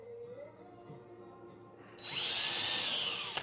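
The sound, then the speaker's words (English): A power drill bores a hole, kicking in about two seconds in with a loud, steady high-pitched whine that runs to the end, after a quieter low hum. “All right, so I've drilled. Have I drilled all the holes? Missing one here.”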